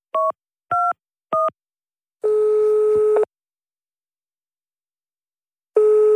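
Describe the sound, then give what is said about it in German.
A telephone call being placed: three short dialing beeps in quick succession, then a pause and a long steady line tone that repeats after a silence, with no talking. “Ich muss sofort den Bürgermeister anrufen.”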